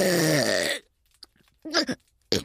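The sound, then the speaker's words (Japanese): A long, loud, low burp from a person whose medicine keeps bloating their stomach, followed by a pause and a few short, quieter breathy sounds. “ああ、またやっちゃいました。報告なしにゲップを失礼してしまうことをお許しください。”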